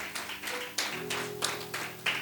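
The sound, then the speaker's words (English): Church audience clapping for the Lord during a sermon: crisp claps in unison, evenly spaced in a steady beat, over held musical tones. “Yes, put your hands together for the Lord.”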